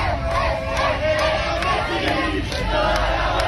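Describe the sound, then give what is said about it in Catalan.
Argentine football fans celebrate a World Cup win on Passeig de Gràcia in Barcelona, a loud, dense crowd roaring and chanting together without pause, voices blending into a steady wall of cheering. “La victòria de l'Argentina s'ha celebrat també a Barcelona.”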